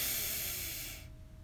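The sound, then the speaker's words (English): A deep inhale during a guided relaxation breathing exercise: a steady, airy rush of breath that holds for about a second and then drops away to near silence. “So let's breathe in. And out. Breathe in.”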